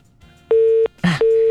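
A telephone busy tone after a caller's line to a radio request show cuts off: two loud, steady, mid-pitched beeps of about a third of a second each, separated by a short burst of crackling noise.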